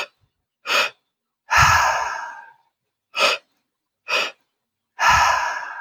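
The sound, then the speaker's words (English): Three-part breathing: short breaths drawn into the lower belly and then the high chest, each followed by a long, noisy exhale. The pattern repeats, with brief sharp inhales set against longer, louder breaths out, and no talking. “So it's the first breath, you breathe into your lower belly, second breath, the high chest, and then the third is the exhale.”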